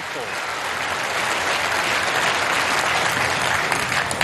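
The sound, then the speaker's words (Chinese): Snooker crowd at the Crucible applauding world champion Wu Yize, a dense, steady roar of clapping that holds at an even loudness throughout, with crowd voices mixed in. “吴一泽是新科的世锦赛冠军，在克鲁斯堡的看台上又响起了专属吴一泽的庆祝的声音，所有人都在高呼着他的姓氏。”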